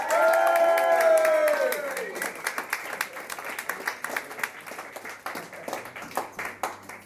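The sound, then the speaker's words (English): Audience applause at a comedy gig in Aberdeen follows a drawn-out, loud call from a single voice. Many scattered, uneven claps come next, moderately loud and thinning slightly toward the end. “So please, can you put your hands together and make some noise for the joke machine for Aberdeen, Mr. Gus Tours.”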